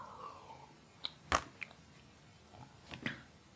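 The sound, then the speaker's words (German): Faint mouth sounds of someone pausing to take a drink: a few soft clicks and a gulp against quiet background, with no talk. “Und zwischendurch muss ich auch mal kurz was trinken.”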